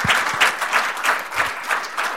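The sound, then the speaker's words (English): Audience applause at a public forum, a dense patter of many clapping hands with a steady, pulsing rhythm that keeps a constant level throughout. “How about a round of applause for Stephen Blake?”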